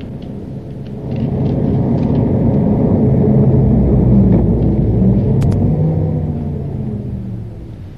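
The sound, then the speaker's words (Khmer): A car's engine rumbles as it drives along, a low, steady, loud drone that holds for several seconds, then gradually weakens and dies away as the engine stalls. “បានជាបើកបើកស្រាប់ទៅរលត់ម៉ាស៊ីនឈឹងចឹង”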